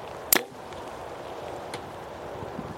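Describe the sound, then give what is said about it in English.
An arrow striking wood in a video game gives one sharp, bright thwack near the start, then a quiet stretch with a faint background hum. “Oh, you hit wood. Why did that sound so weird? That was wood?”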